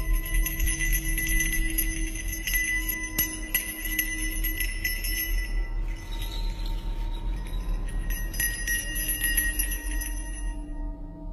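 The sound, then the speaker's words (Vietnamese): A small hand bell jingles, held by a man beneath a peach tree at night. Bright, high tinkling tones ring on continuously, with a few sharper clinks, over a low, steady background. No one speaks. “Đi gần tới nơi, ông lại nghe có tiếng chuông leng keng vang lên.”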